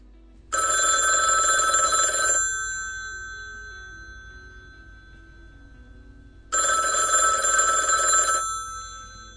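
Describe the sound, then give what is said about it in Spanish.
A telephone rings while a call is being placed: two bright electronic rings, each about two seconds long, separated by a long pause in which the first ring slowly fades. “Vamos a hacer una llamada”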